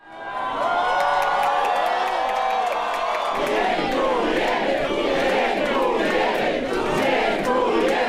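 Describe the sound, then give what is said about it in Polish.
Fans at Warsaw Chopin Airport cheer as they welcome Poland's volleyball team. The cheering is loud and sustained, with whoops and shouts. Voices are heard at first, then after about three seconds they swell into dense cheering and whooping. “tutaj może mała próbka tego, co było słychać i widać na lotnisku Chopina w Warszawie.”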